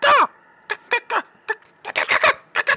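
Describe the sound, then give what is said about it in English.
Harsh, raspy caws from two gigantic birds flying in, starting with one sweeping cry and followed by many short, clipped calls in quick, uneven bursts. “there's two gigantic birds come flying at you.”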